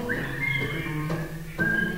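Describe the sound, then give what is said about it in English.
Audience at a live show whistling along together in a sustained high whistled tone held over a few notes, with a brief break and a sharp re-entry near the end. “You know, there's some good whistling going on tonight.”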